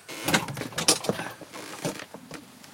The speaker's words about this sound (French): Il n'y a pas de fenêtre. Elle donne sur quoi, cette porte?